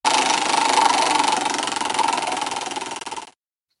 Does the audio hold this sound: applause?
no

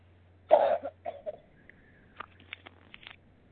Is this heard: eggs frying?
no

